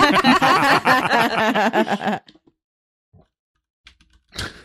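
Typing on a computer keyboard, a few sparse, sharp clicks near the end that follow a louder stretch of sound.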